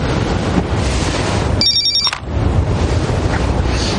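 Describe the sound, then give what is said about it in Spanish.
A mobile phone rings in a beach house with one brief, bright electronic ringtone burst of about half a second, rising above a steady rushing background noise. “Toma el móvil y contesta.”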